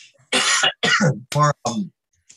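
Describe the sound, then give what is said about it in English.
Coughing from a person who has just eaten almonds: several harsh bursts in quick succession, the first rough and breathy, the later ones more voiced and throaty, separated by short silent gaps. “I ate some almonds and I'm coughing on them.”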